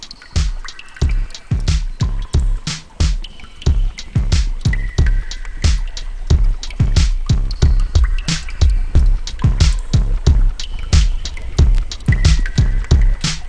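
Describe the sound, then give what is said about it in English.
A music track built from chopped, randomized water recordings over an 808 beat: loud, bright drips and splashes hit in a busy rhythmic pattern above deep, booming 808 kick thumps, with no voices. “And there's an 808 that runs underneath the track. So there's a drum beat at the very bottom of that track, but then there's about 23 tracks of water”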